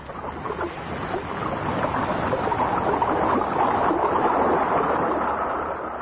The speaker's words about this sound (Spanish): El barco Asaula atraca en ese muelle donde Calimán ya se oculta y permanece al acecho.